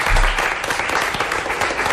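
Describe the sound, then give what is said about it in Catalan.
An audience applauds a guest on a live show. Dense, steady clapping fills the whole stretch at a loud, even level. “Un aplaudiment pel Marc, sisplau.”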